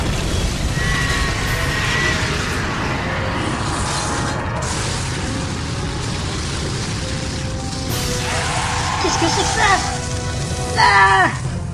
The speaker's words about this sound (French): Hé ! Mais le sol, il tremble !